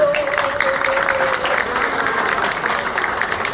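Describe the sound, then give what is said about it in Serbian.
An audience applauds a guest singer at a live stage event, dense, even clapping that holds at a steady loudness through the whole clip. “Molim vas za nju jedan veliki aplauz.”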